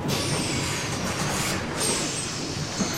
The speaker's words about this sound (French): revenons tout de suite à Montgomery, car ça y est, tu entends ? Oh ! Son bus vient enfin d'arriver